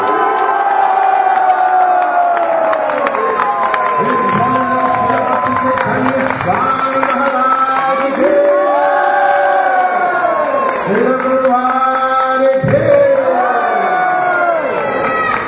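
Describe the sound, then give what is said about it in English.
Crowd of Krishna devotees at an ISKCON celebration loudly shouting Hare Bol in congratulation, many voices rising together in several long cheering waves, each shout sliding downward in pitch, continuing without pause. “so we will celebrate accordingly 40 years of Bhakti Chaitanya Maharaj in the International Society for Krishna Consciousness. So please, again, a big, big Hare Bol to congratulate.”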